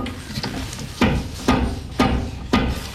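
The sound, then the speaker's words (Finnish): Knuckles rap on an unused toilet bowl made of wood composite: four firm, evenly spaced knocks follow a few fainter taps, each with a dull, short thud. “Ja miltä kuulostaa vessan pytty? Hei, nyt mä koputan. Tätä ei ole nimittäin käytetty vielä, niin mä voin laittaa ihan hyvin käteni vaikka tänne ihan pohjaan asti.”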